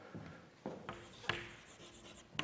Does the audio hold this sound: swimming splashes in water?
no